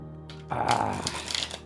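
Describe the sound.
A deck of very new, stiff playing cards is shuffled. After a short quiet start, a rustling, riffling burst of shuffling begins and continues at moderate loudness to the end.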